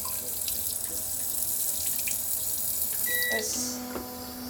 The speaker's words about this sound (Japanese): ちょっとじゃあもうウォシュレットしちゃいます。